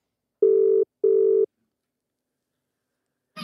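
Ringback tone of an outgoing telephone call: two short, steady bursts of a mid-pitched ring close together, followed by silence and then a brief noisy sound at the very end.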